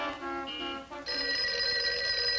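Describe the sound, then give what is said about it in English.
A telephone rings at a desk: an electronic ringing tone steps between pitches in short sections, then settles into a steady, bright, sustained ring. “Now, sitting at a desk, Crandall answers a phone.”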